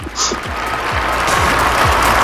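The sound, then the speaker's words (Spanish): Applause from a crowd gathered in St. Peter's Square on Easter Sunday after the Urbi et Orbi blessing, a dense, steady wash of clapping that holds loud throughout. “Y esos aplausos de toda la gente allí congregada que había recibido con sorpresa, con alegría”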